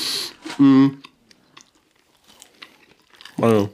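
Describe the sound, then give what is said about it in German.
Someone chews a dry Christmas cookie between bursts of talk, with soft, scattered crunching clicks in the quiet gap. “Schau, ich muss das hier nebenbei erstmal ein Plätzchen essen, das nützt hier nicht.”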